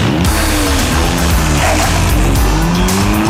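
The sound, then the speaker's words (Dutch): A race car engine revs hard with screeching tire squeal. The sound is loud and continuous, and the engine note climbs and drops through several sweeps. “Even de bolide starten.”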